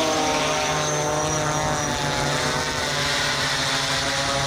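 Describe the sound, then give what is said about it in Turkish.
A kamikaze attack drone of the kind Iran uses in flight: a steady, loud propeller-engine drone with a strong buzzing hum and stacked harmonic tones that holds level throughout. “İran balistik füzelerle beraber kamikaze dronlarla ABD-İsrail saldırılarına karşı koymaya, teknolojik dezavantajını kapatmaya çalışıyor. Körfez ülkelerinde bu ses endişe yaratıyor.”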